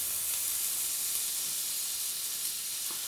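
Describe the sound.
An olive oil and butter mixture sizzles in a frying pan, a steady, bright, even hiss that stays at a constant level throughout, with no talk.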